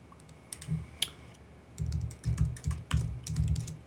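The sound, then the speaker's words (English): Typing a password on a computer keyboard: a short early burst of clicking keystrokes, a pause, then a longer run of many quick, clattering key presses in uneven clusters, with no talking. “I'll log in with my account and key in my password.”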